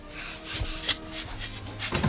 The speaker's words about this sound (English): Can one of you gentlemen open the door for me, please? My hands are full up to my eyes here. Well, go on, lad, open the door.